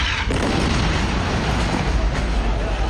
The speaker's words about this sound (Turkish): Cibaliye mülteci kampında bir ev hedef alındı. Bölgede yaşanan patlama anı amatör kameralara yansıdı.